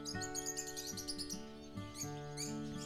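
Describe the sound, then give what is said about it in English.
Birds chirp in a forest with quick, high tweets in repeated bursts. They sound faint over a steady, low tonal background. “Just listen to sound of trees, leaves, and birds.”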